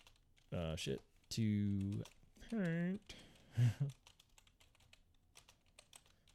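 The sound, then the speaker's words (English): Rapid typing on a loud computer keyboard, many quick, light clicks in an irregular run that follow several seconds of wordless vocal sounds and carry on alone to the end. “Google, as my keyboard is loud”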